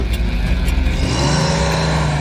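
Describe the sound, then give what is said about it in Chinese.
Car engine accelerating as the driver presses the gas pedal. A loud, continuous engine roar runs throughout, with no voices. “当司机踩下油门时”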